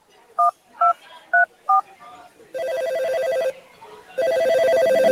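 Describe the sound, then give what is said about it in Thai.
Telephone keypad dialing a four-digit hotline number: four short, evenly spaced beeps, then two longer, louder sustained tones. “พ่อโทรแจ้งสายด่วนปปช.1205 งั้นแม่ก็โทรเลยแล้วกันนะ”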